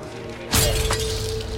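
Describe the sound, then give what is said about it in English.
A window shatters as a spent bullet strikes it: one sudden, loud crash of breaking glass cuts through a steady low hum, and a rough rush of noise lingers after it. “A bullet, a spent bullet, right at the end of its flight, shatters the window and strikes him in the left side of the chest.”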